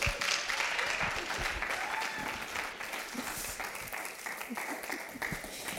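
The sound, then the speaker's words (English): Applause from a church audience welcomes a guest speaker to the pulpit, with dense, steady clapping that holds at an even level throughout. “would you give her a warm welcome? She brings the word today. Just give Bethany a big hand.”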